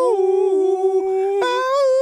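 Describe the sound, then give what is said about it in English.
A voice imitating a coyote-like howl from the back of a hip-hop track: a loud, drawn-out, wavering cry that dips and fades briefly, then resumes on a higher, sustained tone. “This guy's like howling in the back. It's like, ow, ow, ow,”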